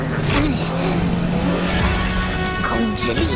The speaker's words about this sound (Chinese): 朱霞，只要控制好，只启动车尾的爆裂冲锋就好。